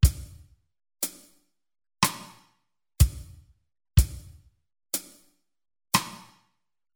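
Side-stick strokes on a snare rim played as a slow, steady drum pattern: eight sharp, woody clicks about one second apart, each ringing briefly and fading, with no voices.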